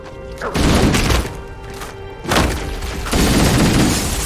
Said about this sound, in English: I shot a guy who was standing on the glass, and then the glass under him exploded and he fell